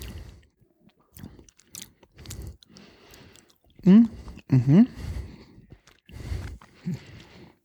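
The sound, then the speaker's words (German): Someone chews a small, firm piece of cheese: quiet, crunchy bites and mouth sounds come in short, uneven bursts, broken by a couple of brief voiced hums. “So, ich probiere den mal. Ich habe mal ein kleines Stück abgeschnitten. Der ist auch sehr fest von der Struktur her.”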